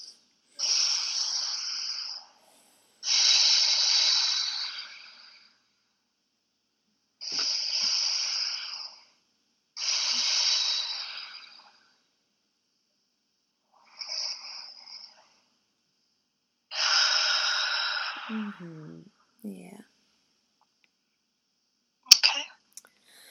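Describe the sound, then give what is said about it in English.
Three slow, deep breaths taken during a guided relaxation exercise, heard as six long, airy whooshes in inhale and exhale pairs separated by silence, with a short click near the end. “And give yourself three nice big breaths.”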